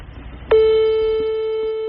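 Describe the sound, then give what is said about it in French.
An outgoing phone call's ringing tone begins abruptly and holds as one steady, buzzing electronic tone that fades only slightly to the end, above a faint low hum. “Je sors mon téléphone et j'appelle celui qui m'a donner ma chance quand même.”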